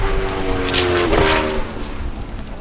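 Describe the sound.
Motorbikes pass by near a coal railway track, a loud, steady engine drone swelling briefly in the middle with a slight drop in pitch, over constant wind noise.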